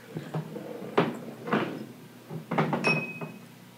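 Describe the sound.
A large bottle of Smuttynose beer being handled and opened: a few dull knocks and glassy clinks, fairly quiet, with a brief bright ring near the end.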